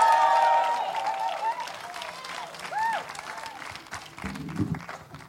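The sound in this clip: Audience applause with a few whoops greets a speaker being introduced on stage at a speaking event. The clapping starts loud and dense, then gradually thins and softens.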